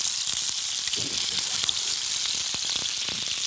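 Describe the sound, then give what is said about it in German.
A stuffed meat pocket sizzles in a frying pan as it is seared on its side to seal it shut. Steady, bright hissing continues throughout, with a few soft clicks and shifting sounds from the pan. “Und das braten wir jetzt von der Seite noch so ein bisschen an, damit sich die Tasche richtig schön schließt.”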